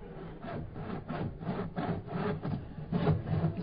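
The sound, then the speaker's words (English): A saw cuts into a wooden safe with a steady rhythm of rasping back-and-forth strokes at moderate volume. No voices are heard. “Turn the volume on that saw down.”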